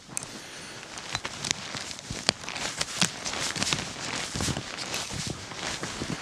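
Footsteps of a person walking outdoors, soft, irregular crunching steps with a few sharper impacts, quiet throughout and with no talk.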